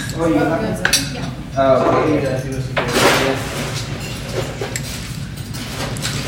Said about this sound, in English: then you can pop that with soda. Yeah. Go ahead and stir it up a little bit.